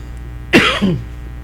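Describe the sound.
A single harsh cough from a radio news reader whose throat suddenly closed up, a sharp burst trailing into a rough, throaty rasp, heard alone against a quiet background hum.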